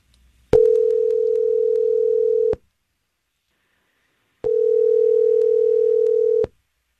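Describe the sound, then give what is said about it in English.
A telephone ringback tone sounds while calling someone: two long, steady, mid-pitched tones, each about two seconds, separated by a pause of silence. “So let's call her and figure it out.”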